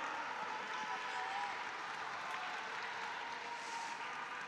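Faint, steady applause from fans watching an Apex Legends battle royale esports tournament match, a continuous even wash of clapping that holds at the same low level for several seconds.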